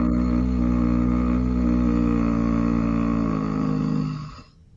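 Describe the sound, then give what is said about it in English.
A sustained, low voiced groan of disapproval holds one steady, buzzing pitch for about four seconds and then fades out at the end. “That was a groan of disapproving.”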